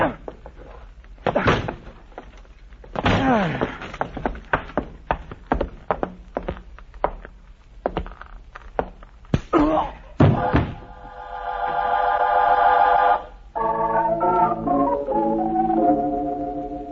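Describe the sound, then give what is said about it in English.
Heavy thuds and bangs as someone forces a locked door, several scattered blows building to a louder crash, after which music rises and plays on to the end. “It's locked. I have to break in.”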